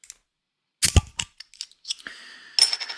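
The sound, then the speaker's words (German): A bottle of winter beer being opened: a sharp crack and clatter from the cap, followed by scattered small clicks and rattles, with no voices. “Und ich öffne mal dieses Wintersternbier.”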